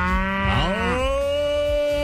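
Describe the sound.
A dairy cow at early-morning milking time gives one long, loud moo whose pitch wavers early on, then settles into a steady, sustained low tone.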